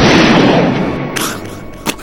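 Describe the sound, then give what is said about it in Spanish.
A gunshot bursts out as a loud booming roar that fades over about a second. Two shorter, sharper cracks follow, the last a brief hard snap near the end. “Cállate, ahí vas a disparar. Listo. A las tres. Una, dos.”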